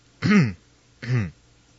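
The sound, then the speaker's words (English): Throat clearing in two short, rough, fairly loud bursts separated by a pause of about half a second, with no talk around them. “Sorry, there's something in my throat there. I had to clear it.”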